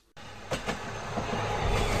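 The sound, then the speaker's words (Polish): Steady low rumble of a passenger train about to depart, starting abruptly and holding on, with two soft knocks early on and a slight swell in loudness toward the end. “Pociąg zaraz odjedzie.”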